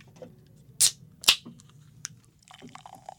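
A can of Bon and Viv grapefruit spiked seltzer is opened, heard as two sharp, bright cracks in quick succession followed by faint small clicks and rustles.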